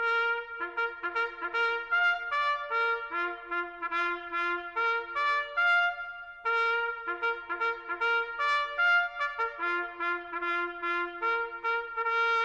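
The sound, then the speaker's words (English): A solo trumpet sounds a tattoo, the night call given shortly before taps. Clear sustained brass notes are played in phrases with short breaks between them. “At true night, the trumpet sounds a tattoo. A tattoo is a call sounded shortly before taps as a notice to go to quarters.”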